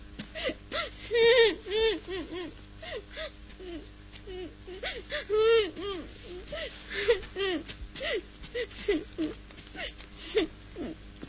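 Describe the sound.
A child cries in a stage drama, with repeated short, wavering whimpers and sobs breaking out in uneven bursts over about eleven seconds, some louder and more strained than others.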